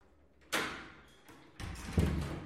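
A door is being opened: a sharp knock or thud comes first, then a faint tap, then a louder rattling clatter that carries on with a heavier bump near the end, with no talk.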